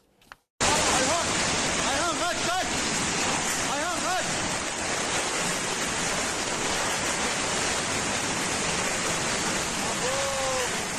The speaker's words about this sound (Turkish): O anları böyle görüntüledi hortumdan kaçmayı başarabilenler. Etraflarında ne var ne yoksa uçurdu hortum.